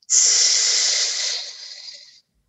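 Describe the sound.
A single long hissing exhale as a person imitates a flat tire during a calming breathing exercise. The bright, steady hiss lasts about two seconds and thins out slightly toward the end.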